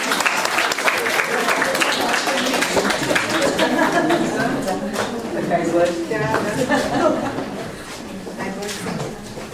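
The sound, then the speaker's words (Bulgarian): Applause for a school music teacher at a school event, steady clapping mixed with chatter from the crowd that tapers off near the end. “Аплодисменти за нея.”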